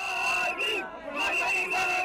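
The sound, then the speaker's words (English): Crowds in the streets of Dakar chant to welcome returning former leader Abdoulaye Wade, a dense, continuous roar of many voices that stays loud throughout with only a slight dip midway. “Gorgui is great, chanted the crowds as Wade made his way through the city.”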